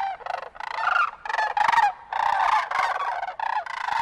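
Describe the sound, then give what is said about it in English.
Sandhill cranes calling in spring: loud, rolling, rattling bugle calls from several birds, overlapping and repeating almost without pause. “Nothing sounds quite like spring, like the sound of sandhill cranes.”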